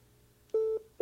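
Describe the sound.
Telephone signal tones as a call connects: two steady, mid-pitched beeps, the second cut short at the end, alone on a quiet line.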